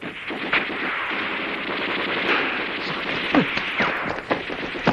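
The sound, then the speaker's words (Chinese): Artillery fire sound effects in a radio drama war scene: a dense, roaring barrage of overlapping blasts, punctuated by a few sharper bursts that stand out from the rumble. “大炮！大炮啊！ 井台村，向井台村大炮啊！”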